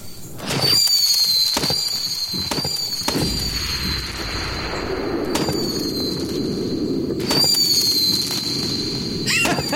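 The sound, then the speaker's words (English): A missile firework is lit and launched, a steady piercing whistle running over many sharp cracks and pops that burst in quick clusters and keep coming. “I'm gonna light one of the missiles. Oh, that's a good choice. Should be a good one. Fire it up!”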